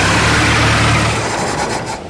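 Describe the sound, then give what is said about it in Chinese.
A car engine rumbles loudly as the vehicle drives up and stops at a ferry landing. The steady roar eases off toward the end, with no voices. “只见远处车灯闪烁， 一辆汽车开了过来，停在了渡口上。”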